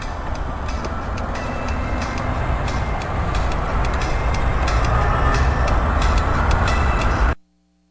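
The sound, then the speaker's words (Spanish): A train running, heard while riding aboard: a loud, steady rumble with a regular clicking beat over it, holding even before cutting off abruptly just before the end. “No ves que estoy feliz. Ya ando en este tren.”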